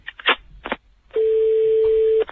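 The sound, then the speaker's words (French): A telephone call to a town mayor being dialed: a few short keypad tone bursts, then a single long, steady ringing tone that cuts off abruptly. “J'appelle monsieur le maire.”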